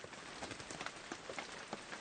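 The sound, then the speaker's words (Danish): Rain falling as a faint, steady hiss of patter with small scattered drop taps throughout, with no voices. “Det regner.”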